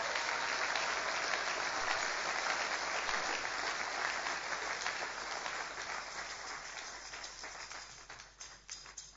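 An audience at a church service applauds after a scripture reading. The clapping is dense and steady, then thins and fades gradually toward the end.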